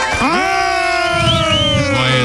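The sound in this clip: Loud audience cheering and whooping greet a guest introduced from Mantena, Minas Gerais, a steady, dense roar of voices that holds for the whole stretch.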